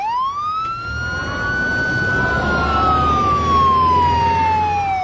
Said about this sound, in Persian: ناگهان ماشین پلیس از کنارشون رد میشه. ماشین پلیس در عقب میگیره و جلوی ون میسته.